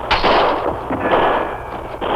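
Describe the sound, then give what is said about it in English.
Gunshots ring out from several sides around a shack on the plains in a western drama. A few loud, sharp reports overlap into a dense, crackling barrage with no talk. “Shots come from every side of the building.”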